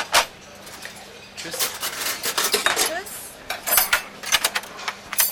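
Cutlery and dishes clatter in a company cafeteria in Cologne: many sharp, irregular clinks and scrapes of metal on crockery, fairly loud and busy throughout.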